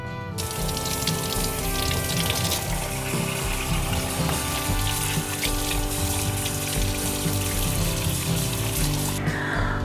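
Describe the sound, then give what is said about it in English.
Tap water runs in a steady stream over salted meat being rinsed, a continuous splashing flow that holds even for nearly ten seconds before changing abruptly at the very end. “So for the next step, we need to rinse these off and then pat them dry.”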